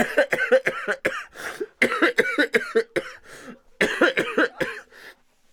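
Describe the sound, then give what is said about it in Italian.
Repeated coughing, many short harsh bursts in three clusters separated by brief pauses, ending in quiet. “Tossisci!”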